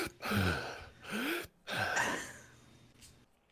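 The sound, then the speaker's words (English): A person breathes audibly in three loud, gasping bursts, some carrying a brief voiced rise in pitch, before trailing off into quieter breath. “He's totally breathing right now. You see this? 100%.”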